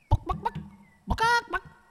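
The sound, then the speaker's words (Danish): A human voice imitating a hen clucking: a few short, clipped clucks, then a drawn-out, brighter squawk, then one more cluck to close. “Prøv lige at se, om I kan gå som en høne. Og husk vingerne. Og så går den meget sjovt. Og så siger den...”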